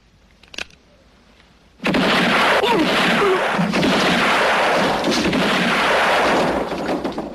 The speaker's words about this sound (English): When you have to shoot, shoot, don't talk.